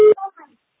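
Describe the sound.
A voicemail beep sounds once at the start, a short, steady mid-pitched tone signalling that recording has begun, and a faint voice follows right after.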